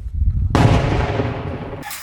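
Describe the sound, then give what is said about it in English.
An American M119 light howitzer fires with a sudden loud blast after a low rumble, its broad roar decaying over about a second before another sharp burst begins at the end. “Ukrainian fighters also learned how to use the American M119 light howitzer.”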